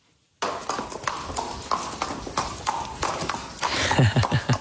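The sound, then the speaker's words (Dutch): Horse hooves clip-clopping: many sharp, uneven knocks in a steady gait, moderately loud over a noisy background. “Het geluid van jouw jeugd. Het hoefgetrappel van paarden.”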